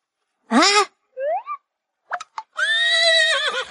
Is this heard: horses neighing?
yes